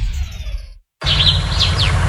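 Springtime birdsong: high, thin chirps and quick downward-sliding whistles over a steady bed of outdoor noise. A brief silent gap separates an earlier stretch of softer, duller sound from the louder singing.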